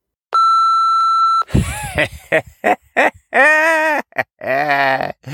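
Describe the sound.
A single long, steady electronic beep from an answering machine before a recorded message plays, followed immediately by a voice speaking in short bursts.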